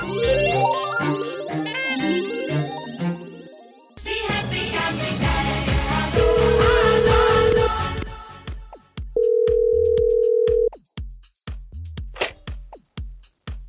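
A telephone call ringing out as people are phoned: two long, steady ringback tones separated by a pause, following a stretch of other tones and noise.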